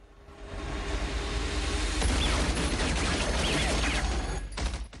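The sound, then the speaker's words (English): Gunfire in a dramatized night battle as a sniper fires on a crawler vehicle and its turret gunner: a dense, roaring barrage of shots and mechanical noise sustained throughout, dipping briefly near the end. “Todd hunkers down in the shadows by the ruined ship and opens fire, killing the soldier on the first crawler's front turret.”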